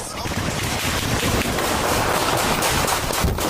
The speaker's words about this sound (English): Sounds like a 4th of July finale. We're doing a lot. Listen to that. They got some guns.